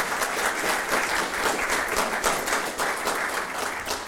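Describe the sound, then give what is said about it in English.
An audience applauds to welcome a guest speaker, with dense, steady clapping that holds at an even, loud level throughout. “Would you like to welcome her this morning? Let's give her a round.”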